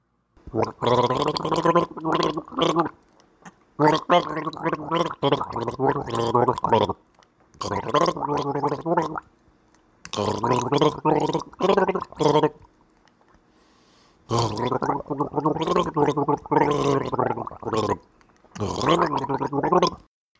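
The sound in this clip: A man gargling a submitted contest entry, producing long, wet, bubbling voiced stretches at steady loudness, broken by a few short pauses.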